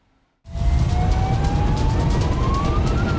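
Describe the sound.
A fire engine siren on its way to an accident wails in a steady upward-rising tone over loud road and engine rumble, starting abruptly after a brief near-silence.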